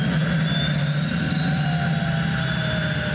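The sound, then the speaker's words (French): A turbine engine in an unusual car roars steadily as the car accelerates. It is a loud, dense rush with thin high whining tones running through it, holding constant from start to finish. “J'accélère, j'entends la turbine qui se met en route.”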